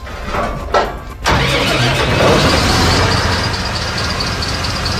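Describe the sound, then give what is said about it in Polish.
A fire brigade water pump driven by a V-configuration diesel engine cranks briefly, catches, and settles into a loud, steady running roar with a faint high whine above it. “To jest pompa Global Pump, która jest wyposażona w silnik diesla w układzie V.”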